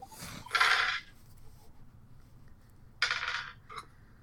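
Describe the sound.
Dice are rolled during a board game, giving two short rattling clatters a few seconds apart and a brief tap after the second, over a quiet background.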